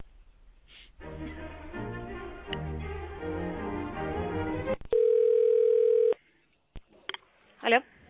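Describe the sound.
A telephone line tone sounds while a call is being connected. Several seconds of muffled voice-like sound come first, then a steady single-pitch tone lasting about a second, followed by a few short clicks and beeps.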